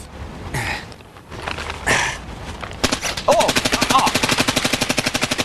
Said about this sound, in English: Fast fire alone isn't enough. It does help if you aim vaguely in the right direction.